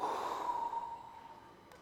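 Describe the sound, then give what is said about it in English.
Soft breathing as children breathe into their parents' ears: one long, airy exhale that starts fairly strong and slowly fades over about two seconds, with no talk. “Just breathe right in their ear.”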